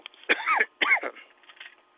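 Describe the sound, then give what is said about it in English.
Two short, harsh coughs come about half a second apart, each a rough burst that fades quickly. Both are fairly faint, with near silence around them. “There you go, coughing again.”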